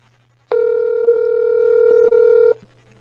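A telephone tone sounds during dialing, a single buzzy steady tone lasting about two seconds with two brief dips, over a faint low hum.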